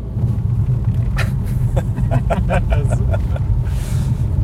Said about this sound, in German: So, jetzt sind wir zumindest schon mal in Lindenberg angekommen und man hört, wir fahren jetzt auf eine Dorfstraße.